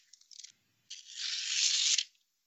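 Paper post-it note being ripped up: a few short crackling tears, then after a brief pause one long, steady rip that stops abruptly. The tearing is crisp and papery, fairly quiet, with no talk over it.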